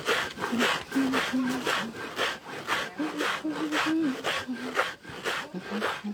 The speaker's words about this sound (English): So these are the husks. I'm now going to grind. Let me check it. This is a grinding stone.